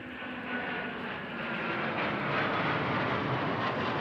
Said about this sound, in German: Erst sind es nur 3 kleine schwarze Punkte am Himmel. Aber nur Sekunden später sind die 3 Eurofighter-Kampfflugzeuge der Bundeswehr deutlich zu erkennen.